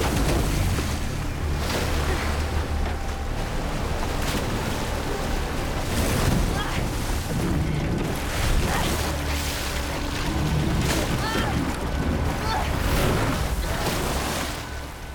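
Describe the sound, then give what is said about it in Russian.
Water rushes and splashes over a boat tossed through river rapids: a loud, continuous, churning roar of turbulent water that stays steady throughout, with no voices. “Брызги перелетают через лодку. Лодку подбрасывает на порогах.”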